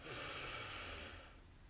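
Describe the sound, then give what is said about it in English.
A single long breath during a guided relaxation exercise: a soft, airy hiss that swells in quickly, holds steady for about a second, then fades away, heard alone. “And our last breath in together, breathe in”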